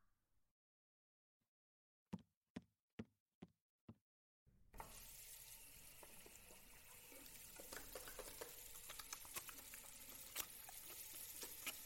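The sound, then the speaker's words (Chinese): Tap water runs as someone washes their hands before a meal. A few sharp knocks come first, then a steady hiss of running water starts abruptly and carries on to the end, growing slightly louder. “那我先洗手吧”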